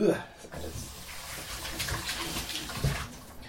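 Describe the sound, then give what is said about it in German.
Running tap water as hands are washed in a kitchen while a tomato and feta dip is being made, a steady hiss that lasts throughout, with talk over it. “Genau, dann einmal Hände waschen.”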